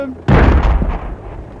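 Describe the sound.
A second shot or blast is fired: one sudden heavy boom strikes after a brief quiet start, then a long low rumbling tail slowly fades over the rest of the moment.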